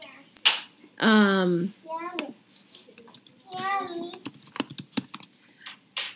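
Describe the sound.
Typing on a computer keyboard: quick, clicky keystrokes in scattered runs, densest toward the end, with someone speaking in between the bursts.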